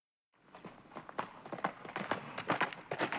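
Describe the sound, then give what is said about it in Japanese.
Hoofbeats of a single ridden horse, a steady rhythmic clip-clop that grows gradually louder, with no other sounds. “不意に背後に馬蹄の音が響いた。”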